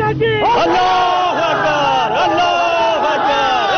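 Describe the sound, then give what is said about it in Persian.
A crowd of protesters demonstrating in Parwan province, Afghanistan, chants and shouts loudly in rhythmic, repeated calls from many voices at once. “شمار زیادی از باشندگان ولایت پروان به خاطر اینکه بیش از 40 تن از نیروهای امنیتی در محاصره طالبان در ولایت بغلان قرار دارند، دست به تظاهرات زده و از حکومت میخواهند تا با مشکل آنان رسیدگی کند.”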